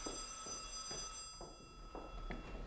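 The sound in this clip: A telephone rings in a radio play set at a hotel: a steady electronic tone that cuts off after a little over a second, followed by a few soft knocks.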